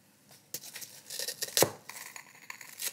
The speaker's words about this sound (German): Und jetzt zerläuft wahrscheinlich, wenn ich das aufbreche mit meinem Löffelchen, die Lava-Erdbeersoße über den Teller.